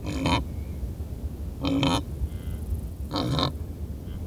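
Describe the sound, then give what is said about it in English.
Three short, rough grunting bursts from wildebeest grazing, spaced roughly one and a half seconds apart over a low, steady background rumble. “recorded these wildebeest grazing”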